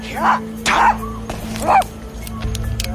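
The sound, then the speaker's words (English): A hound barks three times on a quiet city street in Richmond, Virginia, sharp mid-pitched yaps spaced apart over a steady low hum. “Hey, little dog. You're breaking curfew.”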